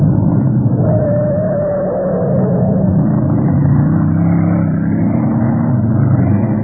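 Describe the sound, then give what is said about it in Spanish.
A small car's engine drones as the car accelerates through deserted streets: a continuous, even low rumble of motor and road noise with no pauses and no voices. “El pequeño auto avanzó por las solitarias calles”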